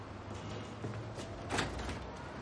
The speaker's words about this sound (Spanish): Se acerca a un ventanal y lo abre para dejar entrar aire fresco.